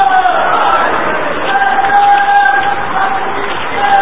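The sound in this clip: A crowd chants a religious slogan (naara) together, a loud, steady mass of voices that holds without pause throughout.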